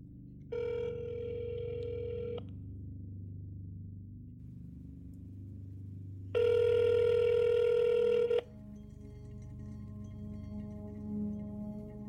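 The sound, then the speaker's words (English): Ringing tones on a telephone line after a number is dialed: two steady, buzzy rings several seconds apart, the second louder than the first, over a constant low hum. “when they called the number on the poster, it actually worked. Once it was dialed, this is what you heard.”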